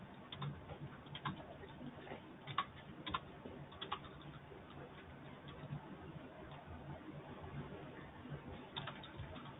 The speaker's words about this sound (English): If I do go silent, it's just because I'm trying to type up all the notes.